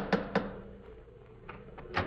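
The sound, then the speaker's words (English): A knocker raps on an icicle-covered front door: two sharp knocks close together, then a few softer thuds after a short pause. “about to lift the knocker of Dr. Watson's familiar front door”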